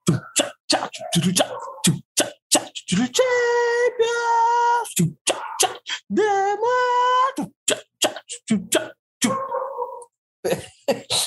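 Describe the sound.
A man beatboxes a remix of the Champions League jingle with his voice alone. Rapid percussive mouth clicks and bursts alternate with sustained, tonal sung notes in an energetic rhythm.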